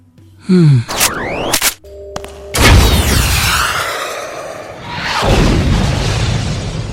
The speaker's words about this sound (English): The tank in front of you contains bioenergy. Alex, obviously. It's a tank. Carla, anyway, shoot the tank with your rocket.